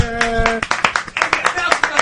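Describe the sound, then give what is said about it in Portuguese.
A round of applause for a footballer after Juventude's win over Internacional: a few people clap in uneven, crisp bursts while voices talk over the clapping. “todos nós aqui temos uma salva de palmas pro Fernandão, por gentileza.”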